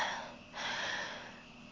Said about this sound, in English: No, I'm still out of breath from walking all the way to the store and lugging this big old bag of cat food.